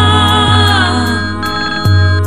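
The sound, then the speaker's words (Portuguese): A telephone ringing with a loud, sustained electronic ringtone of layered steady tones and shifting notes, broken by a couple of brief clicks. “telefone na hora dessa”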